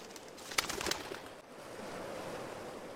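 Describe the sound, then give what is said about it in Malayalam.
Pigeons flapping their wings as they fly up and circle an altar: a quick burst of fluttering near the start over a steady, rushing wind-like hiss. “അൾത്താരയുടെ മുകളിൽ നിന്ന് പറന്നുയർന്ന പ്രാവുകൾ ബലിപീഠത്തെ വലം വയ്ക്കുന്നതിൻ്റെ ചിറകടി ഒച്ചകൾ.”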